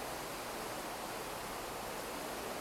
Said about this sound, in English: Follow my voice and follow the sounds of the river, the sounds of the cars above us,